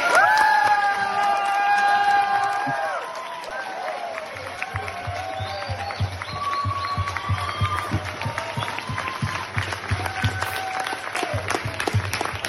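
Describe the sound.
A crowd cheers and applauds to welcome a speaker at a speaking event in Bristol, loud at the start with shouts and whistles, then settling into sustained clapping that carries on to the end.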